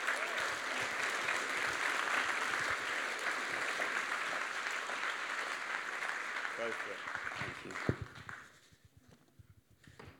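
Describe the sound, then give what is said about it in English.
An audience gives sustained, dense applause to welcome a speaker. The clapping stays steady for about eight seconds, then tapers off to a thinner patter. “So would you put your hands together, please, and welcome, where is he, Christian Guy.”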